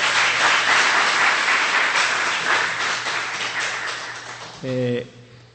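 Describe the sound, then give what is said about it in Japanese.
An audience applauding at an Easter church service, with dense, sustained clapping that slowly fades, followed by a brief spoken voice as the applause dies away. “もう一度イエス様のイースターに心が拍手を送りたいと思います。”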